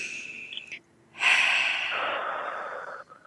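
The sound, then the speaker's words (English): A deep breath during a guided relaxation exercise: a long, soft, airy rush of breath that holds steady for nearly two seconds, with no talking. “Take a deep breath again.”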